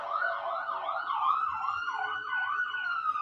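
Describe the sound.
A fire truck's siren passes by, a loud wailing tone that sweeps rapidly up and down in a steady, repeating warble throughout.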